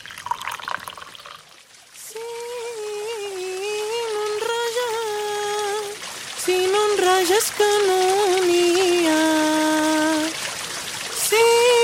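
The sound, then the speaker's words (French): Hot water is poured into cups, a trickling stream with a clear ringing tone. There are several separate pours with short pauses between them, and the pitch stays fairly even. “Voilà, je remplis les tasses.”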